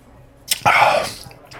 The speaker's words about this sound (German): Diese Klassen, jetzt muss ich mal schon trinken.